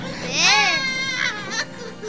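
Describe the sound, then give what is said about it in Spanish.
An upset man crying in a wavering, wailing voice. The pitch rises and falls in sobbing arcs throughout the short clip. “Alguien está llorando.”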